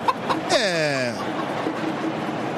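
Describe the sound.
A rooster and chicken sound effect plays during a football match at the Maracanã stadium: one squawk of about a second with falling pitch, over a steady, noisy background.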